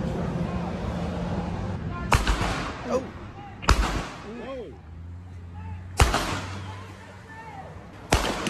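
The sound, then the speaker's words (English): Four sharp, loud gunshot-like bangs from a street shootout near a gas station, filmed by a bystander. The blasts are spaced a second or two apart over a steady background rumble. “These fools pulling out guns, shooting back and forth at each other, and the dude holding the camera, like videotaping it all, is laughing like it's fun.”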